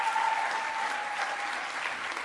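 Audience applause rolls on as a continuous, steady patter of many hands, fairly loud at first and easing slightly toward the end, with no speech over it.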